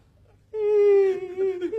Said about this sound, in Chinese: 您别哭，别哭，别哭啊！